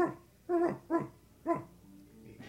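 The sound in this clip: A person imitates a dog barking, giving three short, voiced woofs spaced about half a second apart, with quiet afterward.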